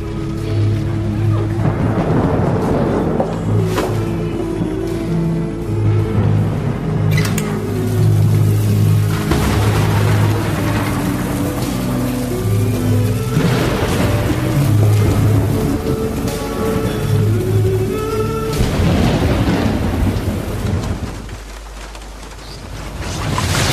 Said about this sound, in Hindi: वो भी आज रात इस बारिश में, इस बारिश की आवाज़ के साथ।